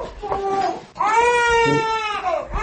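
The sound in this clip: A two-month-old baby cries inside a house whose roof has bullet holes. A brief, whimpering cry is followed by a longer, loud, wailing cry with a high, sustained pitch.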